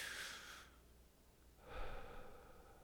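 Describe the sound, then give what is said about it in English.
Slow, deep breathing to ease a tense, clenched jaw: one long, airy inhale, a quiet pause, then a long, soft exhale, faint and with no voice over it. “So I'm going to breathe into that pain.”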